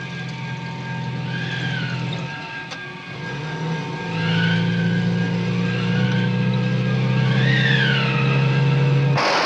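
A car approaches along a road lined with trees. Its engine is a steady low hum that grows louder about midway and then holds, while a few high, sweeping bird chirps sound above it.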